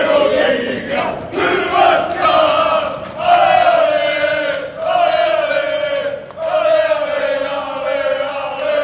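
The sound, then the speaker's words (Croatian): Croatia football fans in Leipzig on a Sunday morning during the Euro tournament sing a supporters' chant: many voices join in a loud, sustained, melodic song with a few brief dips between phrases. “Mirno nedjeljno jutro za stanovnike Leipziga. Već u prijepodnevnim satima prekinula je navijačka pjesma.”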